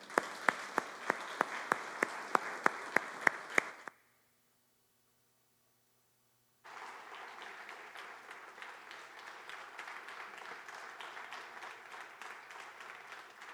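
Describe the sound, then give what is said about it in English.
Audience applause greets a guest speaker at a church service in Ottawa. Evenly spaced sharp claps come first, then a stretch of silence, then dense, steady clapping that carries on for several seconds. “I wonder if we could welcome him with a good hand of appreciation and hear what the Lord would say to us through him today.”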